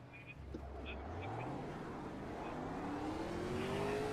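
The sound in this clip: Race car launching from a standing start at the green light, its low engine roar climbing steadily in pitch and holding loud to the end, with voices mixed in.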